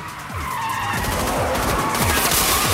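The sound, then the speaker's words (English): Tires squeal as a car makes a fast U-turn during a street chase, with a loud, sustained skidding screech over the roar of a revving engine whose pitch sweeps repeatedly. “Gabriel shoots at it as they pass, then Stan does a lightning U-turn.”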